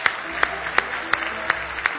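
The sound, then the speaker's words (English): Rhythmic applause from a church audience: six sharp, evenly spaced claps in unison, ringing out over a steady wash of scattered clapping. “Give him a big hand clap of praise tonight.”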